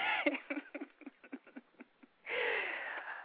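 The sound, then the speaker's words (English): Breathing: many short, quick huffs in an uneven rhythm, then one long, forceful exhale that runs to the end, faint and with no talk. “let me breathe, take a couple of deep breaths before I get into this one”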